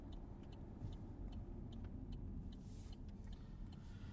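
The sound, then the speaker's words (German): Faint, steady road rumble and low engine drone from a car driving on the A42 motorway toward Duisburg, an even continuous hum with no talk. “So, da sind wir quasi schon auf der A42.”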